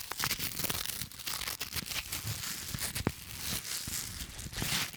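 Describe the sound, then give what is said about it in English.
A duvet being torn apart, heard as continuous ripping and crinkling fabric noise lasting about five seconds, dense and rough with scattered sharper snaps. “Whenever one duvet isn't cutting it, just tear.”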